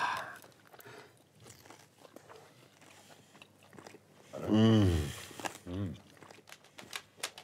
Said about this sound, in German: Dann essen wir es einfach mal.